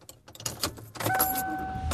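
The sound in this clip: A car being driven, with steady rumbling road noise that swells after a quieter start, keys jangling lightly, and a faint thin whine.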